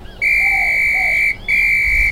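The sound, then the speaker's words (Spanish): A loud, steady, high whistle, carried for use in case of a threat, sounds in two long blasts separated by a brief gap, with no talk. “Y porque traía un silbato que me dio Alicia para usarlo en caso de amenaza. ¡Aquí lo traigo!”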